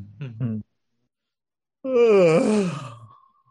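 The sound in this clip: A person yawns: a short voiced sound, a pause, then a long, loud yawn with a drawn-out groaning tone that trails off. No talking.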